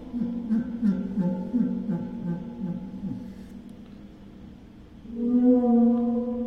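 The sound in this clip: A waterphone is played by dragging a super ball mallet across its bottom resonating plate, producing long, low, whale-like moaning tones that waver and overlap, then swell into a louder, sustained tone near the end.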